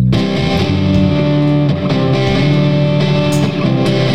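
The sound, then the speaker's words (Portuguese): A heavily distorted electric guitar drenched in reverb rings out in loud, dense sustained chords, shifting a few times over a steady wash of sound. “Tira essa distorção aqui pra mim e esse reverb.”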